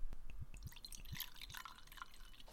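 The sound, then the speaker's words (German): Whisky poured from a new, freshly opened full bottle: faint liquid glugs and gurgles with several short rising plops spaced unevenly, then a softer trickling wash of liquid. “Jawohl, wir haben Eingießgeräusche.”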